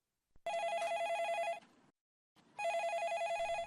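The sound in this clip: A telephone rings for a listener calling in to a radio phone-in show: two long, loud electronic trilling rings separated by a short pause.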